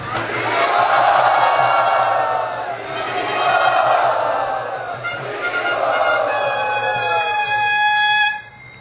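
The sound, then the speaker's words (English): A crowd chants loudly in welcome at a Hare Krishna gathering, voices swelling in repeated long phrases before cutting off abruptly. “And let us welcome Pragosh Prabhu by chanting very loudly.”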